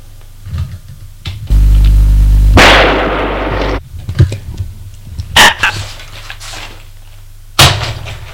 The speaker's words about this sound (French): Elle a tiré.